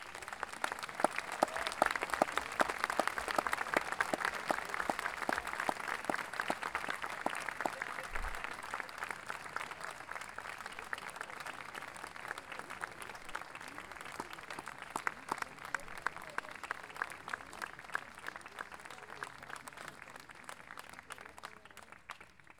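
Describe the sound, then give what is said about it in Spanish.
Sustained audience applause at a music festival, dense and steady clapping from a large crowd that holds throughout and eases off slightly toward the end. “a quienes damos un gran aplauso,”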